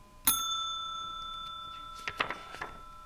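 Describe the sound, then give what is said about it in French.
A telephone rings with one bright, bell-like strike whose metallic tone hangs on and slowly fades. A few light clicks and rattles follow near the end. “Le téléphone sonne.”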